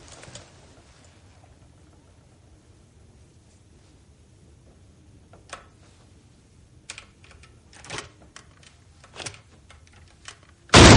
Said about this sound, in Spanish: Saca de nuevo su cinturón de artilugios y extrae de él un juego de llaves y herramientas con las que intenta abrirla.